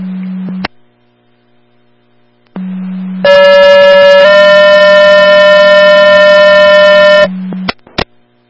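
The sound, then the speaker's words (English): Radio dispatch alert tones paging an ambulance: a steady low tone, a pause, then a loud, buzzy sustained tone that shifts slightly in pitch partway through and holds for about four seconds, ending with a few short clicks. “Center Bridge Ambulance, disregard your tones.”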